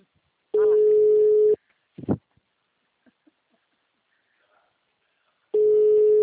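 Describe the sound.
Ringback tone of a phone call ringing unanswered: two long, steady mid-pitched tones separated by about four seconds of near silence, with a brief faint voice-like sound in the gap.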